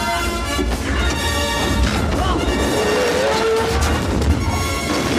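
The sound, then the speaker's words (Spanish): Loud crashing from a jeep ramming into a truck carrying soldiers during a chase, a dense, continuous roar of impact noise and rumbling with sharp knocks scattered throughout, no voices. “El jeep trasero choca contra el camión.”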